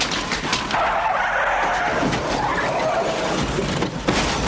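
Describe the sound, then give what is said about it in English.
Police car skidding as it runs through a gate toward a wall: a continuous loud rush of tire scrub and engine noise with no clear pause and no voices. “The car runs through a gate and stops, leaning against a wall.”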